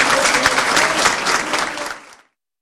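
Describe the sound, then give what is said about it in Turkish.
Applause from municipal staff and party members greeting an acting mayor: loud, dense clapping from a crowd that stops abruptly after about two seconds, leaving silence. “Gültekin, belediye çalışanları ve partililer tarafından alkışlarla karşılandı.”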